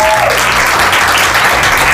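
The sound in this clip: Loud, sustained applause from an audience thanking families, parents and children, with dense, continuous clapping and a low murmur of crowd sound beneath it.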